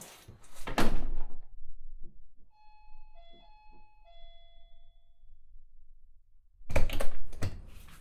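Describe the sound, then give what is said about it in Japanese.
A door being shut, with clattering thuds near the start and again near the end. A few soft electronic beeping tones sound in the quiet stretch between them. “ドア閉めないでくださいよ。”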